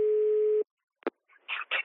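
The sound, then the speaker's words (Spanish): A steady telephone line tone sounds at the start of a call for just over half a second. It cuts off abruptly, and a sharp click follows after a short silence, then a few brief, muffled bursts. “Davor Šuker, que ahora es presidente de la Federación Croata de Fútbol, recibió una llamada telefónica de un amigo. ¿Qué amigo es? Escuchen, por favor.”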